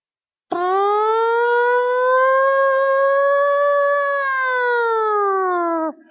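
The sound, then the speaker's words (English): A tornado siren sounds on a windy day in Jackson: one long, loud, steady wail that rises slightly in pitch, holds for several seconds, then drops off sharply at the end. “tornado sirens.”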